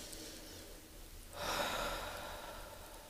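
Slow, deep breathing in a guided breathing exercise, heard as one soft, airy breath that swells and then eases away against a quiet, hissing background.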